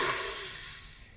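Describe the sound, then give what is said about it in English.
A deep breath during a relaxation exercise at a workshop master class: a soft, airy rush of breath that starts fairly strong and fades gradually over about a second, with no talking. “I want you to take a deep breath in your nose,”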